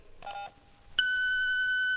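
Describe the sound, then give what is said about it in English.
An answering machine on a telephone voicemail line sounds its message tone: a short blip made of mixed tones, then a long, steady, high-pitched beep that holds for about a second before cutting off. “Unfortunately, I can't get to the phone. Leave us a message after the tone and I'll get back to you as soon as I can.”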